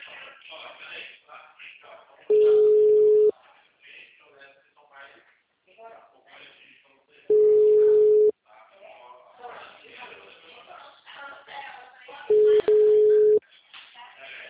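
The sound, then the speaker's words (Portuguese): Ringback tone on a phone line while a call is placed: three steady, level beeps, each about a second long and evenly spaced, with a voice talking in between. “Deixa eu fazer uma ligação.”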